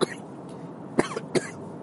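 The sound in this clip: A person coughs twice in quick succession, two short, fairly faint coughs following a quiet stretch, with a brief small burst at the very start.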